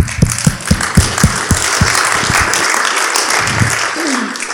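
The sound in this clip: Audience applause welcoming a speaker, starting as distinct sharp claps that quickly merge into a dense, steady patter at a strong level.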